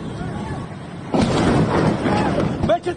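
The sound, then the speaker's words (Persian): A bombing explosion in Bandar Abbas, Iran, during an airstrike. After a low, steady background rumble, a sudden loud boom breaks in and keeps roaring while a man talks over it. “و ناگهان صدای جنگنده آمد و بعد بمباران.”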